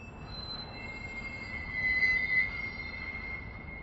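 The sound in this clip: Train running on the rails: a steady, high-pitched squeal of wheels rides over a low, continuous rumble. The sound is faint overall and swells briefly in the middle, with no voices.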